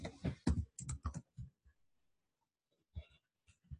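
Computer keyboard typing comes in quick, quiet bursts of clicks. After a short pause, a few more scattered keystrokes follow, with no talking.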